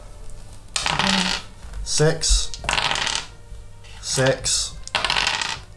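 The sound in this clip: Dice are rolled on a table during a game, with several clattering bursts of hard, bright rattling and tumbling, each lasting about half a second, separated by short pauses.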